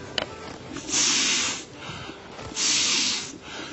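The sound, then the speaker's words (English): Two quick rescue breaths given mouth-to-mouth during CPR, each a short, airy rush lasting under a second, separated by a brief pause, with no talk. “Then you close her nostrils so your air in her mouth will inflate her lungs, and you give her 2 quick breaths.”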